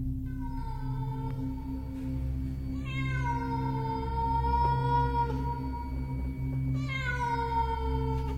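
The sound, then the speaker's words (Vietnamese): A cat meowing mournfully at night beside a candlelit altar: a few long, wavering cries whose pitch slides downward, carried over a steady low hum. “Con mèo kêu lên mấy tiếng não nề.”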